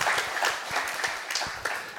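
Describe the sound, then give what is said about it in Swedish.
Light applause for a student who has just graduated: a small group claps in quick, uneven bursts, with distinct individual claps at a fairly quiet level. “Ja, det är värt en applåd alltså.”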